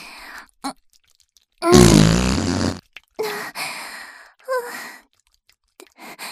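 A loud, raspy fart in a face-sitting roleplay, one long broad burst of about a second with a low buzzing rumble, surrounded by softer breathy vocal sounds.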